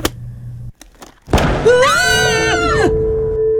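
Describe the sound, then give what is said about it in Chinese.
A pistol being fired: a sudden, heavy booming burst that lingers and blends into a sustained tonal swell before fading. “这次一样，又是在轮到第三位的时候，手枪再度被激发”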